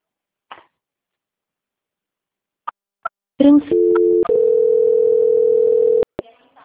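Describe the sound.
A telephone tone plays while a call is transferred to a quality-control department: a few sharp clicks, then a steady electronic tone that steps to a new pitch and holds for several seconds before ending in clicks.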